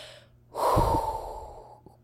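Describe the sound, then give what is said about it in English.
A person takes one deep breath, a breathy rush of air that swells quickly and lasts about a second before trailing off. It is heard alone, with no talking. “Let me take a little bit of a breath here.”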